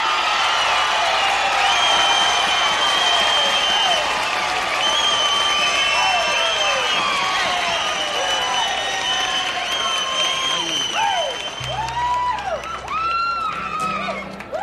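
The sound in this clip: A crowd applauds and cheers to welcome a country singer on stage, sustained loud clapping with whoops and whistles rising above it, continuing at full strength before easing slightly at the end.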